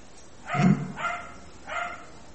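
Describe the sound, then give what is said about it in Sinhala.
A dog barks three times, the first bark the loudest and fullest and the next two lighter and evenly spaced, each standing alone against a quiet background. “බල්ලෙක් පුරනවා නේද? බල්ලා පුරන එක නැහැ නේද?”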